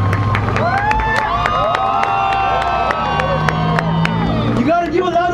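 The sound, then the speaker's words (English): Crowd applause and cheering at a gathering, with sharp, evenly spaced claps ringing out over a loud speaking voice and a murmur of crowd noise beneath. “Big round of applause.”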